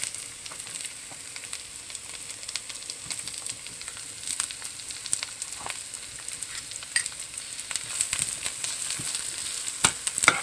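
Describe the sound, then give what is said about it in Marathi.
Finely chopped onion fries in a pan with a steady, dense crackle and sizzle, made of many small bright pops over a soft hiss, with no talking. “त्यात बारीक चिरलेला कांदा घालूया,”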